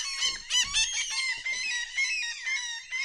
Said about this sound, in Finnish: lokit tulivat pitämään äh, iltaseremonioitaan tänne, tänne laiturille.